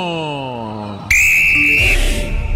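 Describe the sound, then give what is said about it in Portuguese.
A referee's whistle starts the second half of a football match as the American team kicks off. One long, loud, shrill blast lasts just under a second and follows a voice. “O pontapé inicial, como eu vinha dizendo, é da equipe americana e apita o árbitro.”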